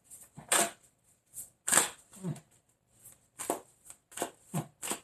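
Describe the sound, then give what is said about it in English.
Oracle cards being shuffled, a run of many brief, papery riffling bursts at uneven intervals, fairly faint overall. “Let me go ahead and get an oracle card and see what goes on.”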